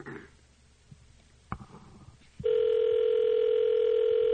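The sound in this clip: Telephone line sounds: a few faint clicks and a brief tone, then a loud, steady, unbroken dial tone holds for about two seconds and cuts off abruptly.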